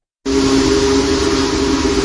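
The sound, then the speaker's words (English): A Union Pacific Big Boy steam locomotive, number 4014, blows its whistle: a loud, steady, sustained chord that starts abruptly and holds unbroken with a breathy hiss of steam, alone and without talk. “Union Pacific Big Boy Steam Locomotive 4014 draws a crowd wherever it goes, thanks to its sheer size.”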